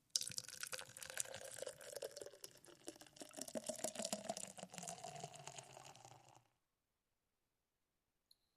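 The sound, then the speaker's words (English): Guinness beer being poured, a faint continuous trickle and fizzing of liquid for about six seconds, then silence broken by a single soft click. “It's Guinness, so you gotta wait like 50 hours after you pour it.”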